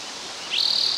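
A single high, thin bird call enters halfway through, a steady fluttering trill held at one high pitch over faint background hiss, with no voices.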